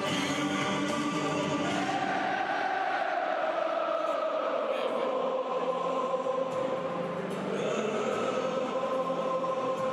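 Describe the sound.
Football supporters sing together at the Westfalenstadion, home of Borussia Dortmund, in a sustained chorus of many voices with slow gliding pitches that fills the whole stretch without a break.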